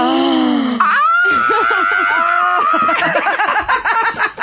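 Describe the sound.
A man squealing in a high voice, with a rising vocal cry that breaks into further strained, laughing vocal sounds. The voice is loud throughout.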